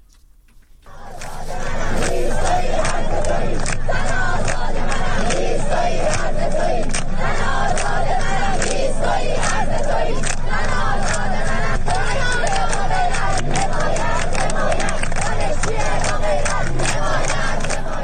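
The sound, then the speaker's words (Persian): Students chanting protest slogans at a university rally at Islamic Azad University in Mashhad. Many voices shout loudly in unison after a quiet start, with sharp claps or shouts punctuating a continuous, dense crowd roar. “بنابر گزارش ها دانشجویان دانشگاه آزاد در مشهد دست به تجمع اعتراضی زدند و شعارهایی در محکومیت فضای سرکوب سر دادند.”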